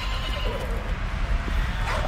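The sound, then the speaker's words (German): A horse whinnying as it shies in a sandstorm, its neigh partly buried in a continuous, loud roar of wind and blowing sand. “Mein Pferd scheut.”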